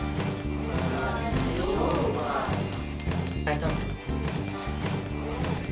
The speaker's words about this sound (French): Jingle maintenant.